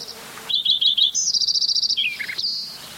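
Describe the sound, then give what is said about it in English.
Several birds sing, led by a clear high-pitched song of rapid repeated chirps that runs into a fast trill, then drops to lower notes, with fainter calls from other birds behind it. “I think there's now the one in the background's a different bird. There's actually 16. There's actually three singing.”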